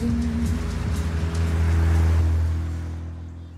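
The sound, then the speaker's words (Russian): Steady roar of a convertible car driving along a highway, broad wind and road noise with a low engine drone that gradually eases and fades toward the end. “Кабриолет едет в шоссе под палящим солнцем.”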